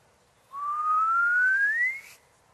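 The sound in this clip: A simulated chirp of two merging masses: a single pure, whistle-like tone that glides steadily upward in pitch for over a second, then cuts off abruptly.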